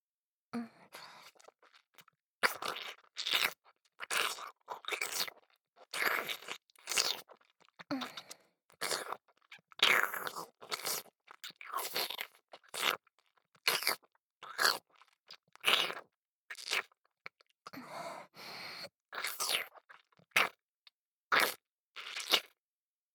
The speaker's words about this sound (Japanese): そろそろじっくり絞らせていただきますね